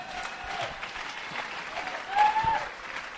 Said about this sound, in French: est-ce qu'on peut l'acclamer très fort?